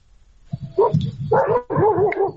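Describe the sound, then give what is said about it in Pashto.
A dog barks and yips in a few short, mid-pitched bursts. The bursts grow fuller and louder toward the end, with no talk over them. “دا خو سپی غاپی ها او بس”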